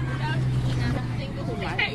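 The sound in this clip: A moving high-school bus interior carries a steady low engine drone and broad road rumble, with faint murmuring voices of passengers underneath.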